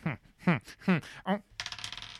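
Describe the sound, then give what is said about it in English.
A die rolled during a tabletop role-playing game, heard as a rapid run of small clattering taps that bounce and settle. Several short voiced syllables come just before it. “he cannot do anything without rolling a bloody dice”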